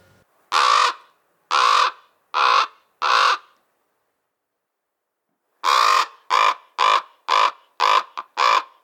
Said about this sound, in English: The first was the caw of the American crow, and the second was the croak of the common raven.